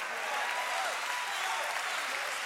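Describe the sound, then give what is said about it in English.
Soft, even audience clapping, a steady wash of many hands at low volume throughout. “Now, it's funny how people are like clapping right now because we know the end of the story.”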